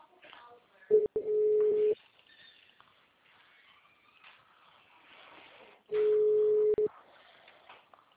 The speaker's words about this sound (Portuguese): Nossa, que demora para atender o telefone.